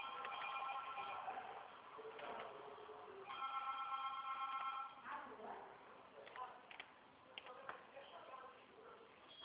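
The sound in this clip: Telephone ringing in a few bursts of tonal ringing, heard faintly and mixed with murmuring voices and background noise.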